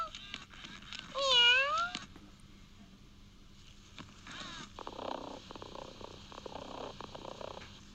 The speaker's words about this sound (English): You could actually hear it purring, I hope, as well.